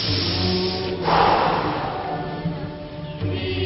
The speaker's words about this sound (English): Now next breathing, inhale, exhale through the mouth